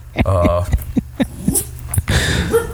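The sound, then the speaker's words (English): A dog whimpers and gives short yips after being woken up. There are a few sharp, separate bursts with gaps between them, and someone talks over the sounds. “hey, no barking. Somebody woke him up”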